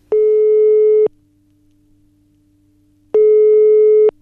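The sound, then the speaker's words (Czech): A telephone ringing tone sounds as a call is placed: two steady, low, buzzy beeps, each lasting about a second, separated by a silent gap of roughly two seconds. “a teď už opravdu volám Vaškovi.”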